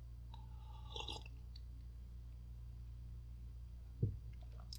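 Faint slurping mouth sounds as someone takes a sip of grape juice, a soft wet burst early on and a brief click-like swallow near the end, otherwise quiet.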